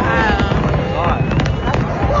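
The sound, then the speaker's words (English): Fireworks burst over a crowd of fans at an album release display by the CN Tower and Harbourfront, with a few sharp pops rising above a dense, steady wash of crowd voices and cheering. “at Harbourfront, where an album release fireworks display was held”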